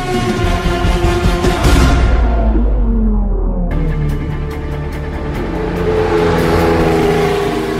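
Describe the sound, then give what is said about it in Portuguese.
Ferrari Formula 1 car engine revving loudly during testing at Fiorano, Italy: a continuous, harsh mechanical howl whose pitch sinks for a couple of seconds, then climbs again as the engine picks up revs, with no talk over it. “testes da Ferrari, Fiorano Itália. horrível, parece um porco.”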